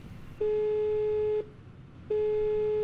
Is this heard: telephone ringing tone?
yes

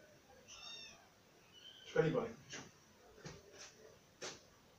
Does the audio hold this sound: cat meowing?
yes

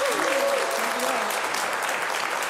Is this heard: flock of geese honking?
no

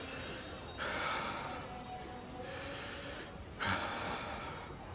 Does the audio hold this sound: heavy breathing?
yes

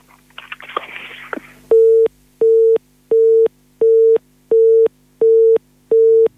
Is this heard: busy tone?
yes

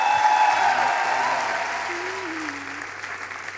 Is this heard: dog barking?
no

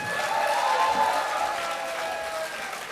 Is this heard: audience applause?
yes

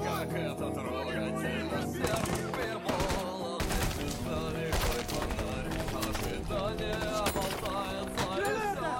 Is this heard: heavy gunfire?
yes

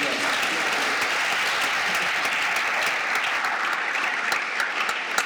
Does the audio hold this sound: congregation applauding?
yes

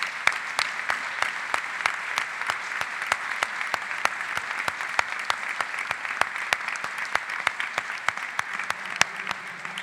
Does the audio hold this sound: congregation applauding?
yes

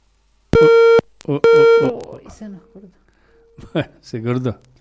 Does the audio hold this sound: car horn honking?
no

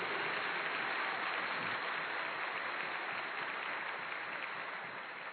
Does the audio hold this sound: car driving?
no

